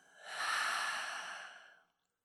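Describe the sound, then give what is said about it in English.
A deep, full breath is exhaled slowly during a guided relaxation, a soft airy hiss that swells quickly, holds, then fades away over about two seconds. “Let's go ahead and take another deep, deep, deep full breath. And let it out.”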